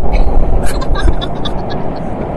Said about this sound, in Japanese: 電車の音がしますね。